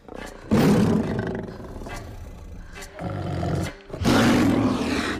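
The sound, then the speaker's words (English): A lion roaring as it stalks toward a person in a tree: three deep, loud, rough roars, the first long and sustained, the second shorter and lower, the last strong and breathy. “The lion creeps closer. She jabs the air with her spear. The branch wobbles. The lion bares its fangs.”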